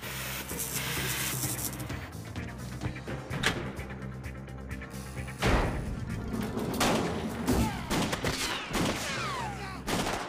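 Gunfire from a film scene in which extras are riddled with bullets: dense, sustained volleys of loud, sharp shots that keep up across the whole stretch with no clear breaks.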